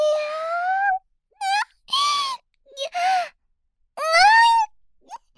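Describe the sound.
Loud crying from a single voice, several drawn-out tonal wails and a few short yelps separated by moments of silence.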